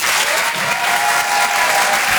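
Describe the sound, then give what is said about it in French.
An audience at a comedy club applauds a comedian with dense, loud, steady clapping that stays level for the whole stretch. “Faites du bruit s'il vous plaît pour Laurent Parra.”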